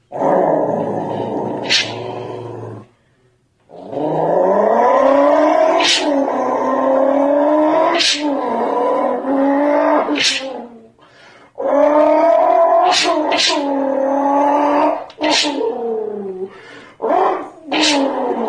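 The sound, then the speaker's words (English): A man imitates a turbocharged engine with a blow-off valve using only his voice: buzzing, harmonic revving tones that climb in pitch, broken by many sharp hissing bursts and a few short pauses. “That's a dude, right? Yeah, that is a dude. Because it's, I'm thinking, all right, it sounds turbocharged with like a blow-off valve, and then yep. I'm going, except I can hear him breathing. Yeah, that's a dude.”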